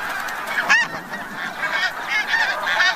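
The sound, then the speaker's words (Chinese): Snow geese honk at their Arctic breeding ground, a loud, continuous chorus of overlapping nasal calls from many birds with no talking. “雪雁一生只忠于一个伴侣，每对雪雁到达之后就必须立刻占据一块筑巢地。”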